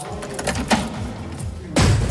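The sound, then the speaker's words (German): Heavy, thick doors at Heimsheim prison: a dull rumbling shuffle with a softer knock early on, then a loud, low, weighty clunk near the end as a door shuts. “Dicke Türen, Stacheldraht, hohe Mauern. Der Arbeitsplatz von Pfarrer Thomas Wagner.”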